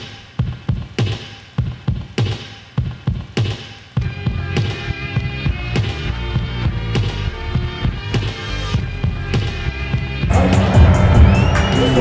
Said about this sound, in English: We're at the game. It's loud in here.